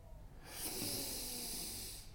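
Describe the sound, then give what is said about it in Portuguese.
A deep, deliberate breath in during a guided breathing exercise: one long, airy inhale that swells in loudness and then tapers off, with no talking. “inspira e enche bem o seu corpo de ar, faz uma inspiração bem deliberada”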